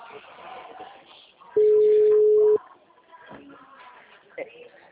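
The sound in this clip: A single steady telephone tone holds at one pitch for about a second as a call is forwarded to voicemail, cutting in between stretches of people talking.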